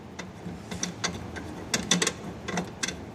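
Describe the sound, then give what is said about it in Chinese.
Light mechanical clicks and ratcheting come from a mounting bracket for an air conditioner's outdoor unit as it is clipped onto a window and tightened. Many quiet, irregular clicks sound over a soft background hiss, with no talk. “往上一扣，然后稍微拧紧就 OK 了。 加固一下。”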